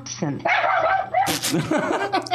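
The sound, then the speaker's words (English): Yappy the Grammar Dog barks in a few quick, high, sharp yips mixed with talking voices. “That's Yappy the Grammar Dog.”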